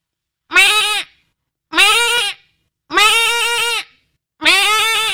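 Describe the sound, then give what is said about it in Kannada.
A human voice imitates a goat bleating, delivering four loud, nasal, wavering bleats of similar length with short pauses between them and no other talk. “ಚಿಕ್ಕಮಗಳು ಮೇಕೆ ಕೂಗುವುದು,”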